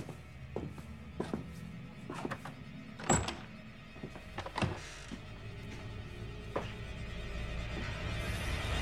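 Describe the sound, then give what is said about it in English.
Clicks and thunks from a heavy wooden front door being unlocked in the early hours: a few soft clicks and two louder thunks over a steady low hum. “unlocks the heavy wooden front door”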